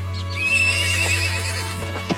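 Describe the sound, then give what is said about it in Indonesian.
A horse harnessed to a horse-drawn carriage neighs in one long, wavering whinny. A steady low hum runs underneath, and a single sharp knock sounds near the end. “Puspaningrum segera naik ke atas kereta kuda yang sudah siap meninggalkan halaman”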